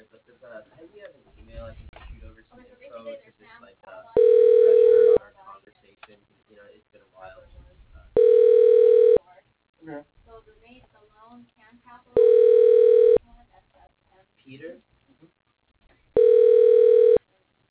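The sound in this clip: A telephone ringback tone plays while a call is being transferred: four even, steady tones, each about a second long, repeating at regular intervals, with faint, muffled background sound in the pauses.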